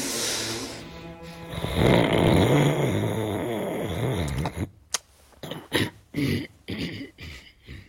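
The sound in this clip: A man snoring in his sleep: a long, rough, sustained rasp at first, then a series of short, choppy snorting bursts with pauses between them, fairly loud and heard alone.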